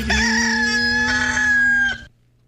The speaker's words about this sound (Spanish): No hay un pollo tan auténtico como mi amigo. Ah, no, eso sí, jamás. Sí. Tremendo pollo. ¿Quieres que suene?